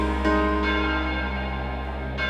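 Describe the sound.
A deep bell rings with a sustained, steady tone that hangs throughout, with a few fresh strikes marked by brief swells.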